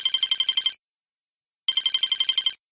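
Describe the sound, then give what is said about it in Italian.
A mobile phone rings with a bright, high electronic ringtone in two bursts of rapid repeating notes, split by a short silence. “squillò il mio cellulare”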